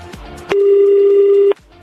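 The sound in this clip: A telephone tone sounds as a call is placed: one steady, mid-pitched electronic beep held for about a second, loud and alone, starting and stopping abruptly.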